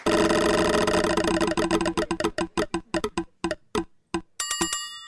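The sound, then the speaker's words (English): A spinning prize wheel clicks rapidly at first, then its clicks slow and spread apart as it winds down, ending with a bright ringing chime. “it's your turn to spin the wheel.”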